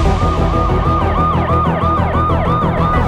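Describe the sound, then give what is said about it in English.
Wailing emergency sirens open the Sonic the Hedgehog 2 movie trailer: several overlapping tones sweep repeatedly up and down, loud and continuous over a dense low rumble. “how about we play the trailer for Sonic the Hedgehog 2?”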